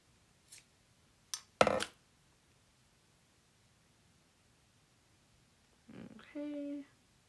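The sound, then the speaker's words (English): Scissors snip through crochet yarn in a few short, faint cuts separated by quiet pauses. “Well, I cut it, and so not frogging that yarn ever again.”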